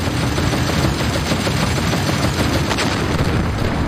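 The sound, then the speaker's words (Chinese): Anti-aircraft gunfire aimed at tanks near a bridge: a continuous, dense barrage of loud overlapping shots with no pauses, heavy and steady throughout. “美军坦克刚刚靠近大桥，就遭到了德军高射炮的火力袭击。”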